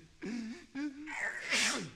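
A person sneezes during a comic bit about flu: two drawn-out voiced 'ah' intakes come first, then a sharp, loud, noisy sneeze burst.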